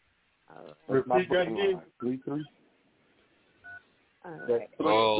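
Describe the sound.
A single brief telephone keypad dialing tone beeps in a pause between stretches of people talking.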